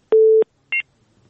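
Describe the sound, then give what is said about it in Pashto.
A phone-line busy tone marks a caller's dropped connection: one steady low tone lasting about a third of a second, then a short higher double-pitched beep, and then near silence, with no voices. “زموږ د اوریدونکو غږ قطع کېده”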